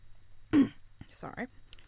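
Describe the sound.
A brief throat clearing: one gruff, voiced rasp followed by a few faint clicks and small mouth sounds.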